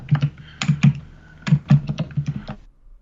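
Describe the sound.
Fast typing on a computer keyboard: many quick, irregular clicks of keystrokes in uneven bursts, fairly crisp and heard alone with no talking.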